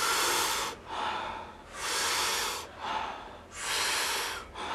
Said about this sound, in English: the inhale is a big breath in through the mouth and expand the lungs, expand the belly. And the exhale is a soft, relaxing exhale. So we take in more breath and then we softly exhale. We do it rhythmically and it sounds like this.